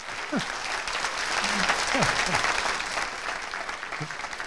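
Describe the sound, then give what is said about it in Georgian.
Sustained applause from a conference audience for the event's organizing marketing team: a dense, steady clatter of many hands clapping throughout, with a few brief cheers rising above it. “ერთი კაი დიდი ტაში მოკლედ მარკეტერის გუნდს.”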